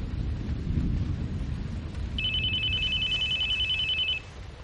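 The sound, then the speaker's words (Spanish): A telephone rings with a single steady electronic trill that lasts about two seconds and then stops abruptly, over a low background rumble. “cogiendo el teléfono. Diga.”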